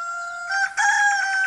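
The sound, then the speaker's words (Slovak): A rooster crowing: one sustained, bright, harmonic call that is loud and heard alone. “Kohútik, pridaj, solo máš.”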